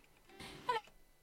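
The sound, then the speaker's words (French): A house cat gives one faint, brief meow that rises over low background hiss, quiet and short. “C'était quoi ça? C'était un truc de... C'était mon chat.”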